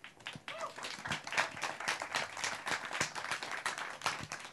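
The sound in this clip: An audience applauds to welcome a speaker: brisk, dense clapping with uneven swells and individual sharp claps poking through, moderately loud and continuous to the end.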